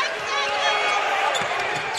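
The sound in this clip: A basketball is dribbled on the court during a game, a few dull low thuds under the constant loud roar of the crowd.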